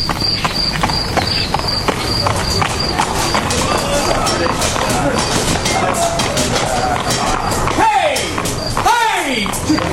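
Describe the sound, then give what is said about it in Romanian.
Clip-clop of a rickety horse-drawn carriage approaching at a slow trot, with steady, evenly spaced hoofbeats running the whole way through. “Era o dimineață frumoasă, să tot fi fost orele 6, când își făcu apariția o trăsură hodorogită ce se apropia în trap mărunt.”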